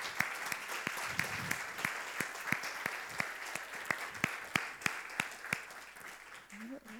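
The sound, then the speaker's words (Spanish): A church audience claps in unison in a steady, even rhythm of about three claps per second, with sharp, evenly spaced beats that continue for many claps. A voice briefly rises near the end. “Un aplauso al Señor. Y si es para el Señor, vamos a hacerlo más fuerte,”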